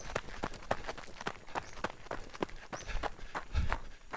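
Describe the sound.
Running footsteps, a quick, even patter of many footfalls at a steady pace. The steps are fairly faint and heard alone.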